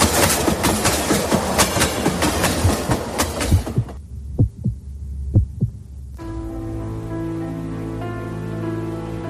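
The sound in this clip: A train arriving at Atocha station: dense rushing noise gives way to a few deep, heartbeat-like thumps, then to a steady droning electric hum.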